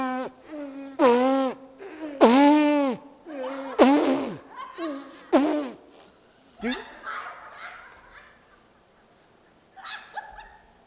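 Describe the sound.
People in a church group buzz their lips, giving a series of loud, buzzy, pitched bursts with bending tones, followed by fainter, breathier attempts.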